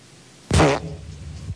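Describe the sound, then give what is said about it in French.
A single fart sounds in a loud, raspy burst, then trails off into a quieter, lower sputter that lasts about a second. “je te jure qu'une plante, même comme ça, que ça pousse, ça pète pas, quoi.”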